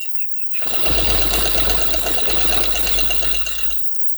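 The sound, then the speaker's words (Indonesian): A mother sewing at a sewing machine: a steady, continuous mechanical whir with a fast, even chatter runs for about three seconds, starting and stopping cleanly with no talk over it. “Iya, tunggu sebentar sayang ya. Mama habis jahit baru bantu adik.”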